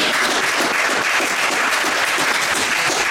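Audience applause in a live show as the crowd votes by clapping: dense, steady clapping fills the whole clip at an even, fairly loud level without pauses.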